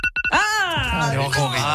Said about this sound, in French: je vais t'annoncer que ma sonnerie, c'est ça.